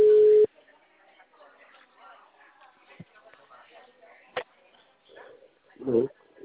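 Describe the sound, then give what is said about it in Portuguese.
A ringback tone on an outgoing phone call: one short, loud, steady tone at the start, followed by faint, muffled talk and low line noise. “ligar para esse cliente, vamos ver se ele atende.”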